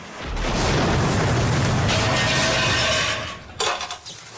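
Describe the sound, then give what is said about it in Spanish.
Aerosol can bursting after blackening from heat beside an open junction box, blowing open a panel: a long roaring rush followed by a sharp metallic crack and clattering debris. “El aerosol explota y abre un panel que da a la central de seguridad.”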